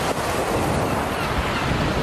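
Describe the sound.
Ocean surf at La Playa beach rolls as a continuous, steady roar of washing water. There is no clear break between waves and no voices, just a dense, even hiss throughout.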